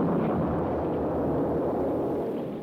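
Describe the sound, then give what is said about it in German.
A ship exploding and sinking as a radio drama effect: a loud, broad, rumbling roar that holds steady for nearly three seconds before starting to fade, with no distinct separate blasts. “Explodiert. Versinkt mit Mann und Maus.”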